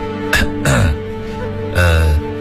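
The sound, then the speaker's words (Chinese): Deliberate coughs to catch someone's attention: a few loud, throaty, voiced bursts with short pauses between them, heard on their own. “咳嗽两声引起对方的注意”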